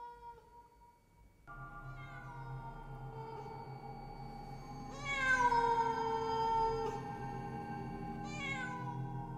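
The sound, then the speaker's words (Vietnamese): A cat meowing: long, drawn-out, wavering cries rich in harmonics that swell louder and higher midway, then a shorter, higher cry near the end. “Ác linh rít lên the thé the thé. Vào trong tai của những thường nhân ở bên kia đang hoảng loạn, thì bọn họ nghe giống như là tiếng mèo đang kêu vậy.”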